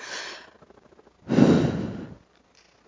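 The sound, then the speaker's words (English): An audience taking a deep breath together during a sermon: a soft rush of air, then a louder, broad, breathy exhale lasting under a second, followed by quiet. “I'm going to ask you all to take a deep breath with me,”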